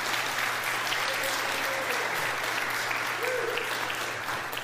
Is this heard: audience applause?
yes